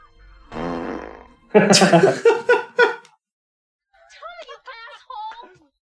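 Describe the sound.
A fart-like noise from a film: one drawn-out, low, buzzing rasp, then loud vocal exclamations and, later, quieter voices.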